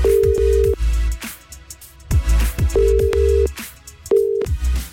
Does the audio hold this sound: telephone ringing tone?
yes